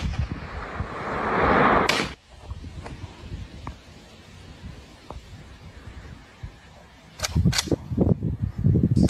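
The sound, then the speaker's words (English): Gunshots from an AR rifle fired at a drone: a few sharp cracks, one early and a quick cluster near the end, each rising out of steady rumbling background noise. “Someone's shooting out of here. They're trying to shoot it down with an AR.”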